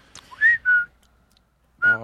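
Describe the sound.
Men whistling a cartoon theme tune: three short, clear, high notes, the first two back to back, then a pause before the third.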